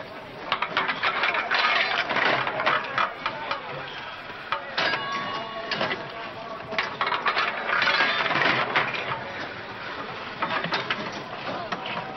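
Slot machine reels spinning with coins dropping: a dense, continuous metallic clatter of jingling coins and rattling mechanism that stays loud and busy for the whole stretch, with brief louder bursts.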